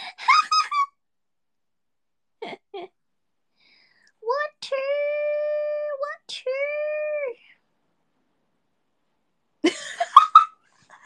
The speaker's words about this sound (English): coughs and hurts herself in audio form